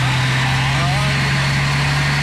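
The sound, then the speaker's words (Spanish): A Dina truck engine of the Torton type idles in a steady low drone with a broad rumbling hiss, unchanging throughout, while a voice is briefly heard over it. “Este tiene un motor de Torton. Un motor de camión Dina.”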